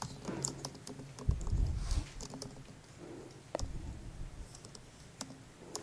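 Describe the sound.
Keys clatter on a computer keyboard as a command is typed into a terminal: a run of quick, light clicks with a few sharper, heavier strikes mixed in, and no voices.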